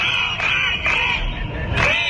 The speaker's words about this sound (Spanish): Y este es el sonido de una nueva jornada de protestas de los profesores en Cataluña.